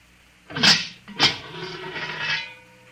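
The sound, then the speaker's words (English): A kiln door is opened after firing glazed tiles: two loud grating scrapes in quick succession, then a longer, rougher scraping drag that fades away, with no talk. “I will open the kiln.”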